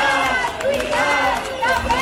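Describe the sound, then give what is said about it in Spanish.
A crowd protesting at Plaza de Sant Jaume in Barcelona during an education strike. Dense, overlapping voices form a loud, continuous din with no pauses. “Este es sonido desde la Plaza de Sant Jaume de Barcelona.”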